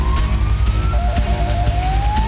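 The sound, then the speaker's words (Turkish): An ambulance siren sounds on flooded streets during a heavy downpour, a wailing tone that drops in pitch and then slowly climbs again over a steady low road rumble. “Aracıyla birikintide mahsur kalan bir kişinin imdadına ambulans yetişti.”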